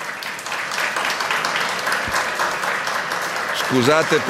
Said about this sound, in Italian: Mi fate un applauso